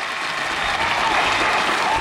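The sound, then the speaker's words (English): Audience clapping fills a brief burst as a dense, loud, even wash of many hands clapping together, with no clear individual claps standing out. “Make a clap for them.”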